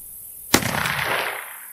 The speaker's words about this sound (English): Try with these scoped rifles. Here you go. Now aim at that target down there.